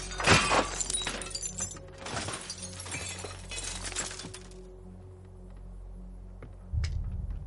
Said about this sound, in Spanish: Dan rompe la ventana del piso superior